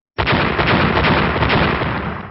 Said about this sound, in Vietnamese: Liên tục bốn tiếng nổ lớn vang lên